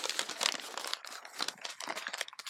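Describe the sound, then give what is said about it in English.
Paper crinkles and rustles in many quick, crackly bursts, faint and continuous, with no talk. “if you heard the paper crinkling, that's because of”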